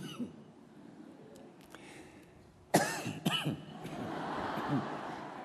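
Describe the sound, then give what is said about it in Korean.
A couple of short, harsh coughs burst out in quick succession midway through, breaking a quiet, low background. “제가 기침을 자꾸 하는데 죄송합니다.”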